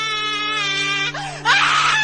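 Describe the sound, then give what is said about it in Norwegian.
Wailing screams from a crowd of more than 100 people gathered in San Francisco to scream at the sea. Cries with falling pitch give way to a louder, harsh burst of screaming over a steady, sustained tone. “Over 100 mennesker møttes i San Francisco bare for å skrike mot havet.”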